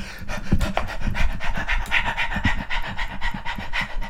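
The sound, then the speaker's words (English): Quick, rhythmic panting of a person out of breath after running through an Olympic Village toward a long jump event, many rapid breaths in and out, loud and continuous. “okay, I need to stop for a second. Gotta catch my breath.”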